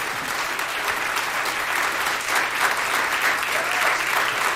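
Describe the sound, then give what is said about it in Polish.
Dense, steady applause from an audience after a violin performance at a jubilee concert, a continuous wash of clapping that holds its level throughout without pauses. “Wielkie brawa.”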